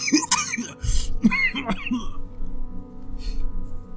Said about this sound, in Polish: Kaszle.